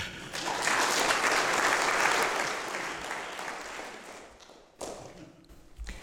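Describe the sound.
Audience applause welcomes a returning speaker who is about to minister: a dense, steady wash of clapping that slowly thins and fades, then flares briefly again near the end.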